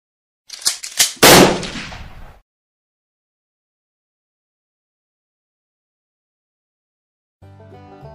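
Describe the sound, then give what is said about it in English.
A gun fired point-blank against a dog's head: a few sharp clicks lead into one loud blast that rings out and fades over about a second, then silence, then faint music. “I reloaded my gun and called Old Yeller back from the house. I stuck the muzzle of the gun against his head and pulled the trigger.”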